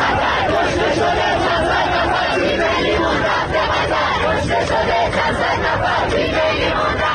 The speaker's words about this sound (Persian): و ایرانیانی که در قطر حضور دارند و همزمان با بازی تیم ایران شعارهای مرگ بر خامنه‌ای سر دادند.